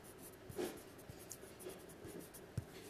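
A pen scratches out labels along the x-axis of a graph, faint, short stroking sounds with a few light taps and scrapes.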